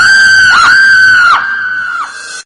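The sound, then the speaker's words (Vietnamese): A single long, piercing scream, loud and shrill with a wavering pitch and brief catches along the way, heard alone and dropping slightly in volume during its final second before cutting off. “Một tiếng thét chói tai”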